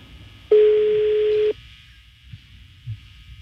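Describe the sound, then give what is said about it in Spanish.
An unanswered telephone ringback tone sounds once as a steady, mid-pitched hum lasting about a second, then stops, leaving only faint background noise. “Está sonando, pero no contesta.”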